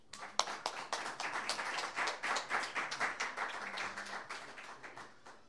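An audience applauds to welcome a poet and songwriter to the stage, with many crisp individual claps in a lively, uneven patter that stays at a steady, moderate level.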